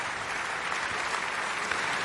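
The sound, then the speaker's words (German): Opera audience applauding the singer of the title role at the Felsenreitschule, a thick, continuous wash of clapping at a steady level for the whole moment. “Das ist der Applaus für Georg Nigel, der hier die Titelrolle gesungen hat.”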